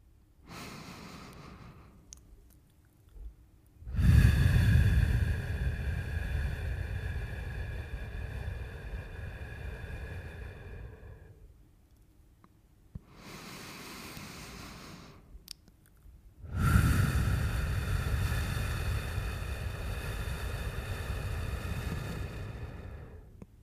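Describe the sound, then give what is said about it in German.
Slow breathing exercise, inhaling to a count of two and exhaling to four: two rounds, each a shorter, softer in-breath followed by a longer, louder, rushing out-breath, with short pauses between them. “Ich atme jetzt bis 2 ein und atme bis 4 wieder aus.”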